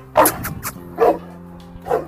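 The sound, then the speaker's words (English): A friendly dog barks in a few short, bright yips spaced unevenly, with clear gaps of quiet between the barks and no talk over them. “Sorry for the dog, guys. Dog is being friendly.”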